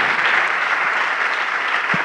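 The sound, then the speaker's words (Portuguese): A church audience applauds in praise of Jesus as new people come forward, producing a dense, even roar of many hands clapping that holds steady and fairly loud from start to finish. “Vamos aplaudir ao nome do Senhor Jesus por cada vida que está chegando.”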